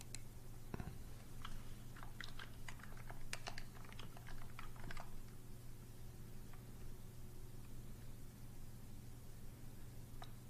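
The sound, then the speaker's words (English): Typing on a computer keyboard: many quick, faint key clicks in an irregular burst over the first half, then only a few scattered taps over a low steady hum. “Let's see if I can type.”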